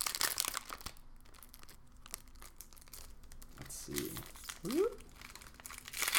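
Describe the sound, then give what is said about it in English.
A pack of trading cards is torn open, producing crisp crinkling and rustling of the wrapper with a short tearing rip partway through, fairly quiet and lasting several seconds. “I love that card opening sound.”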